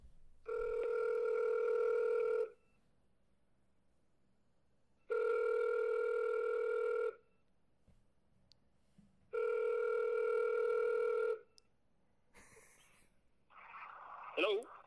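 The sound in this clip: A telephone ringing for an incoming call: three long, bright ring bursts of about two seconds each, separated by even silent pauses, followed by brief sounds from the line at the end.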